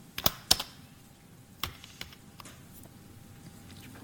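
Keystrokes on a computer keyboard: a few sharp clicks spaced irregularly, the two loudest near the start, then fainter scattered taps. No one speaks.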